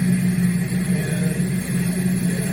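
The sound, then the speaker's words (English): Generators running in a backyard setting: a steady, droning engine-like hum with a strong low tone. It holds even in loudness from start to end, with no voices. “Right now, we're being by the generators, so we probably won't be able to hear much.”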